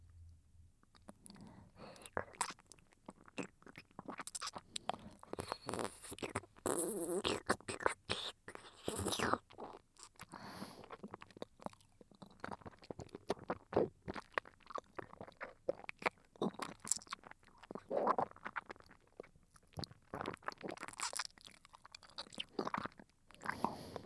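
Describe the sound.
Close, soft chewing and eating sounds right beside the ear: many wet, crunchy bites and mouth clicks repeat unevenly throughout, quiet and intimate with no clear talking.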